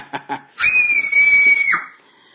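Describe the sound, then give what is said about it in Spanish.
A terrified scream sound effect: one sustained, piercing high-pitched shriek held for about a second, preceded by two short, quick sounds. “Alejandro Deudor dice que por los efectos de sonido, los gritos de terror.”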